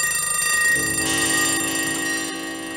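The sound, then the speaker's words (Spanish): Clocks and alarm bells ring together, the kind used in a rock album's quadraphonic mix: a dense, bright metallic jangle that holds steadily throughout and eases only slightly toward the end. “Tengo también este reloj. Tengo también este.”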